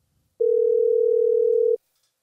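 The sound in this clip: A telephone call rings out as one steady, low electronic tone lasting about a second and a half, heard alone before falling silent.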